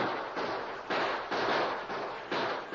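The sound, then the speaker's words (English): Gunfire in a gunfight, with bullets ripping into a wooden barrier: several loud, harsh bursts of rapid, noisy shots follow one another in quick succession with almost no pause between them. “And the gunfight continued without any letup, and Soapy's men crawled closer and closer. Their bullets ripped into the wooden barrier, and Barnes was hit.”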